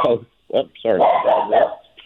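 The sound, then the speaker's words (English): A dog barks and yips in a few short, sharp bursts with whimpering, higher-pitched cries between them, mixed with a person talking. “So no problem with the dog. We're dog friendly here.”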